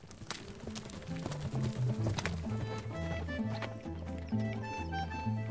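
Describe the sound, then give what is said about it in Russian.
Horses' hooves clatter as four saddled horses set off carrying riders. A quick, irregular beat of hoofbeats sounds alongside a melodic music backing. “Оседлали четырех коней. Девушек обеих усадили, сами сели и поехали.”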